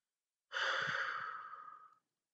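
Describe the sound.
One deep breath is taken before greeting a visitor. It is a single long, airy breath of about a second and a half that starts strongly, fades steadily and stops, with no talking.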